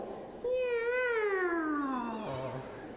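A kitten gives one long, clear meow that starts fairly high and slides steadily downward in pitch over about two seconds, fading toward the end, heard alone over faint background hiss.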